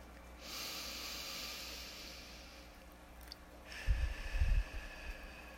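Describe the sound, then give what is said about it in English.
Slow, deep breathing, an inhale and exhale: two long, airy hissing breaths, the second with soft low rumbling pulses, in a quiet setting. “Close your eyes and breathe with me. Inhale deeply and exhale slowly.”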